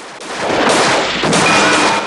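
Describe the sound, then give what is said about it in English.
Gunfire and a shotgun blast in a film shootout between police officers and bikers on a building roof. A loud, dense burst of overlapping shots runs almost unbroken for two seconds. “On the street, police officers trade fire with bikers on the roof of a building. An officer reels back as he's hit. Another officer blows a biker through a window with a shotgun.”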